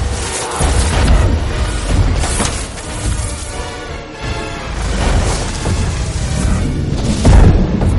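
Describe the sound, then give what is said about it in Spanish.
A creature crashes through city buildings and smashes them. The result is a loud, continuous roar of rumbling booms and collapsing debris, with several heavier impacts standing out from the dense crashing. No one speaks. “Destruye a su paso los edificios contra los que va chocando.”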